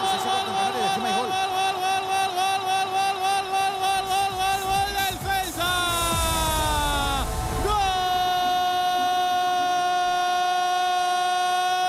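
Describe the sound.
A train sound effect of loud, sustained horn-like tones rich in harmonics. Midway the pitch slides downward, then a steady tone resumes and holds to the end.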